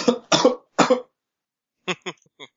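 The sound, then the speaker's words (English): A person coughs in a few harsh, noisy bursts, some doubled, then after a pause come several short, voiced sounds. “Uh-oh. Coughing.”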